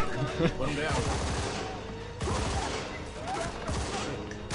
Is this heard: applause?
no